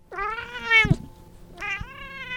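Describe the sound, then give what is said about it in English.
A gray cat meows twice, loud and alone: a long, drawn-out first meow, then after a short pause a second, similar meow. “Hannah Jimmy held the gray cat, thought to be one of three in town.”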